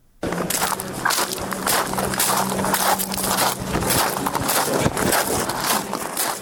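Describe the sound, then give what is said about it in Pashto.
Footsteps crunch over sand, a steady rhythmic series of many gritty steps that continues throughout with no voices. “په دې اړه پام وکړئ ریپورت ته چې په شګو کې په قدم وهلو سره پیلېږي.”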